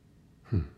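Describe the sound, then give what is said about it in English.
A single short deep breath, one soft breathy burst under a quarter second long after near silence. “let's take a deep breath together as I once again allow this transition to take place.”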